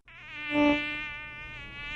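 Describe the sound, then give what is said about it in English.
A mosquito buzzes with a thin, high, whining drone that swells to a peak early on and then holds at a fainter, steady level, heard alone. “with certain very irritating, buzzy little critters, mosquitoes. Nobody likes mosquitoes.”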